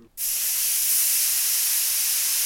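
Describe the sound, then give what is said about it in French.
A hot steam iron pressed onto a wet cloth to cook a seven-hour leg of lamb gives a loud, steady hiss that bursts in abruptly and holds unbroken to the end. “Voilà la cuisson du gigot de 7 heures avec un fer à repasser, branché chaud et un chiffon mouillé.”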